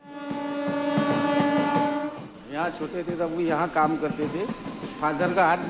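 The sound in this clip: A train horn blares at the railway station in Vadnagar, India, a long, steady, harmonic tone lasting about two seconds, followed by people talking.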